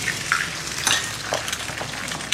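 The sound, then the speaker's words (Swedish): Eggs frying in a pan on a window ledge or pavement in Paris, a steady crackling sizzle with scattered sharp pops and spits throughout, heard alone without talk. “de här klippen då på Parisbor som steker ägg och pannkakor i fönstersmygen eller på trottoaren”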